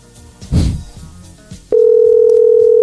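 A telephone dial tone on a radio show calling a listener: a couple of soft clatters and thumps, then a steady single-pitch tone that cuts in abruptly and holds loud and unchanging to the end.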